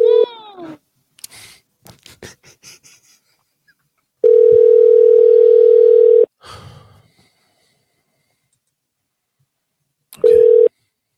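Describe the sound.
Outgoing phone call ringing before voicemail picks up: after soft breathy vocal sounds, a steady pure ringback tone sounds for about two seconds, a quiet gap follows, and a second tone begins just before the end.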